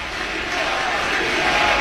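A stadium crowd gives an ovation at an American football game between Seattle and Washington, in light mist, as an injured player is carted off. It is a steady, broad roar that swells slightly at the end.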